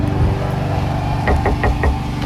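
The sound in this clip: Knocking on a door: a quick run of several sharp raps, close together near the end, over a steady low hum.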